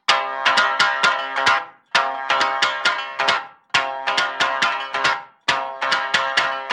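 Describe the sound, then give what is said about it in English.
A shamisen plays a phrase of bright, twangy plucked notes in four quick clusters, each separated by a short pause, with the strings ringing sharply at every attack. “この後に、 このような三味線が入ります。”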